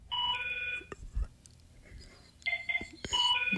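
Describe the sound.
A telephone rings in two warbling electronic bursts separated by a short pause, over a low background rumble.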